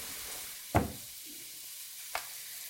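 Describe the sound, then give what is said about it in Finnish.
Onion frying in oil in a pot gives a continuous soft sizzle, with two short, sharp knocks standing out above the steady hiss and no voices. “Kuollutaan sipulia padassa öljyssä 2 minuuttia ja lisätään valkosipulin silppu.”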